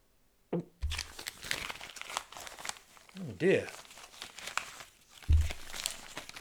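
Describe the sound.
Envelopes from a government department torn open one after another, with paper crinkling and tearing in bursts of rustly, crackling noise, several sharper rips standing out.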